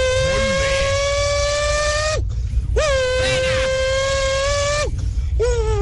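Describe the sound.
Superbike motorcycles racing past, their loud, high engine whine holding a steady pitch, then dropping sharply as each one goes by. Two clear drops occur, and the whine builds again between and after them.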